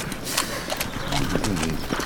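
A horse, just tamed and made to stand for its rider, clip-clops with scattered hoof knocks and shuffling over a busy, noisy background.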